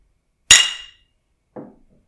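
Glass Heineken beer bottles clink together in a toast: two sharp, bright knocks about a second apart, the first loud and ringing, the second softer and shorter.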